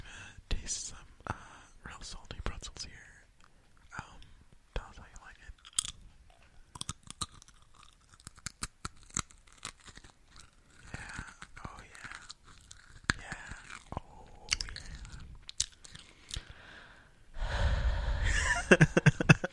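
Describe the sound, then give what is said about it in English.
Snacks being chewed and crunched up close for ASMR: many sharp crunches and wet chewing sounds, with whispering and breaths between bites, before a louder, noisier stretch at the end. “Give me some snacks. Snack me. We're going to do, what's that called? ASMR. Okay, we're going to do it.”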